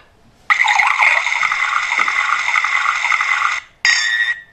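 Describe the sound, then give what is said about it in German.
Someone urinating into a kitchen sink: a loud, continuous splashing stream of liquid for about three seconds, a brief pause, then a second short spurt. “Pinkeln im Küchenstudio. Genau. Es gibt Leute, die pinkeln nicht nur in die Duschtasse, sondern auch in die Küche ins Waschbecken.”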